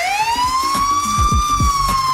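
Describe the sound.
A police car siren pulls a driver over, its loud wail climbing in pitch and then levelling off. Low rumbling vehicle pulses sound underneath.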